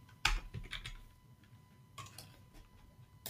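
Keystrokes on a computer keyboard as a category name is typed: a few scattered, faint clicks, one sharper tap near the start and the rest light and spaced apart.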